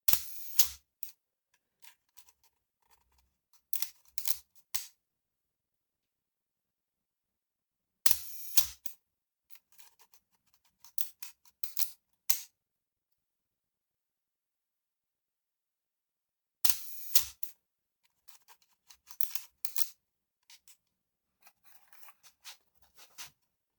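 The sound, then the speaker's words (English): A camera shutter fires during a reshot, refocused and relit photo setup, in three separate bursts of sharp mechanical clicks and small clatters, each followed by long stretches of silence. No one speaks. “I've reset the shot. I've decided that I've just moved it over slightly. I've refocused. I've relit. And I'm going to have another go, and hopefully this will be the last shot.”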